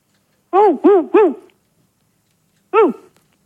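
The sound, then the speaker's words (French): Dog barking heard over a telephone line: three quick, tonal barks in a row, a pause of over a second, then one more bark, all loud and clear against a silent background. “Je crois qu'ils ont un chien, dis-moi.”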